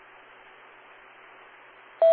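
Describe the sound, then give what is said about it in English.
A steady tone sounds on an amateur radio net, its loud, single pitch cutting in abruptly after a stretch of faint, even radio hiss. “Now I hear the tone.”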